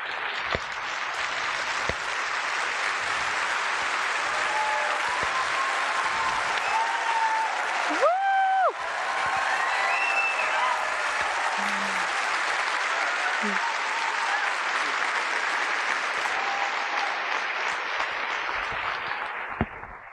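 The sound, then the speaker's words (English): Audience applause welcomes Prem Rawat as sustained, dense clapping that runs steadily and fairly loud for many seconds, with a voice briefly heard over it midway. “So if everybody could join me in extending a warm welcome to Prem Rawat.”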